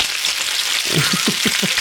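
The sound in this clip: Sizzling like bacon or hash browns frying: a steady, crackling hiss runs throughout, joined in the second half by a few soft, low bursts.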